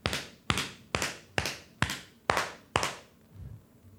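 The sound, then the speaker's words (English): Seven dull, evenly spaced smacks demonstrate patting a dog on the ribs, like slapping a bag of mulch or wood chips. A softer thump follows the last smack, and no voice is heard. “Dogs love that. Just a dull smack on the ribs. Like you're slapping a mulch bag. Said mulch, hate myself. Like you're slapping a bag of wood chips at Lowe's.”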